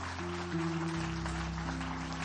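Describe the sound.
A church audience claps after a sermon, a dense, even wash of applause under sustained held keyboard chords.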